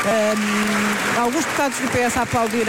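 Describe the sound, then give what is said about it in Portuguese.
Members of parliament applauding in the chamber: sustained, loud clapping throughout, with voices speaking over the applause at several points. “E o PS também aplaudir, alguns deputados do PS a aplaudirem”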